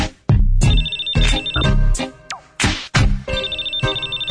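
A telephone ringtone sounds as a call is placed to a brother about a party. Its high electronic trill repeats in several bursts over loud, low, thumping beats.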